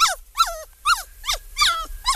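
A small pet dog whimpers in a run of six high, whining cries at a steady pace, each call sliding downward in pitch and fairly loud against a quiet low hum.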